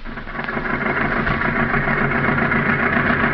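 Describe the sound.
An old car engine runs with a steady, loud rumbling drone that stays even and unbroken throughout.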